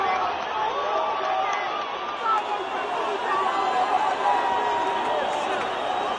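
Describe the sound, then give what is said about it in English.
Crowd commotion from a brawl among fans after Uruguay lost 1-0 to Colombia at a Copa America match at Bank of America Stadium. Many voices shout and chatter in a continuous, dense roar. “Now that is not the sound of fans cheering at the match between Uruguay and Colombia. That is the sound of the brawl that erupted after Uruguay lost to Colombia 1-0.”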